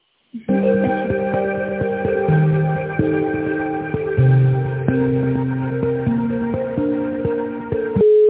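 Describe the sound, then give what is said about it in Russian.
Synthesized on-hold music plays over a telephone line while a business call is transferred to a sales department, with sustained electronic notes that step between pitches in a slow melody and no talk. “Так, я сейчас переключу на коммерческий отдел.”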